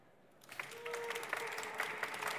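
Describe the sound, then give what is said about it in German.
Audience applause greeting a guest being introduced at a talk event, beginning after a brief quiet moment, swelling quickly and then holding as a steady, moderately loud patter of clapping. “Ein Applaus.”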